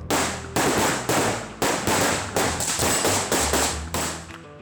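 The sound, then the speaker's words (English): Gunshots during a tactical training run in a kill house, with a group entering in formation and firing at targets. A rapid string of loud, sharp cracks, each with a short ringing decay, spaced fairly evenly throughout. “In the video, with Dan guiding them, the guys enter the kill house in formation and fire at targets inside.”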